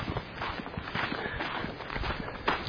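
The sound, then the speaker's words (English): Footsteps walking outdoors through a yard with fruit trees and grapevines, a steady run of many even steps at walking pace, fairly loud and continuous throughout. “We'll walk down here now.”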